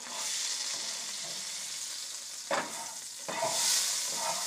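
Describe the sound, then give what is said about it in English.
Potatoes fry in a pan with a steady, hissing sizzle throughout, broken by a couple of brief stirring scrapes near the end. “just cooking up potatoes. Or as we say, potatoes.”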